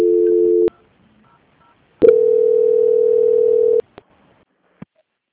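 Telephone line tones sound while a call is transferred. A short steady tone stops, then after a pause a longer steady tone plays. A few sharp clicks follow in otherwise silent line.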